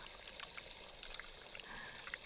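Hands being washed with soap, scrubbing the palms, backs, fingertips, nails and up to the wrists. Faint water trickles and patters, with soft, irregular drips and splashes and no voices.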